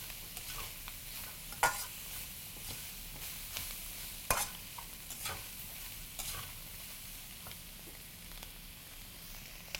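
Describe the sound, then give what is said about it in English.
Vegetables sizzling in a pan over the highest flame, a faint steady hiss broken by a few sharp scraping clicks as they are stirred. “So this dish is going to be done as soon as these vegetables are done, and I still have it on the highest flame.”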